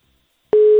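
Telephone line tone while calling a number: after a short silence, a single steady mid-pitched tone starts abruptly and holds loud and unbroken to the end.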